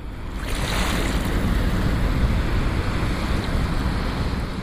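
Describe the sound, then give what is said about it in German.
Water of the Rhine river flowing in Bonn rushes in a steady, broad wash, mixed with gusty wind noise and holding an even, moderate level throughout. “Der Rhein in Bonn fließt einfach weiter.”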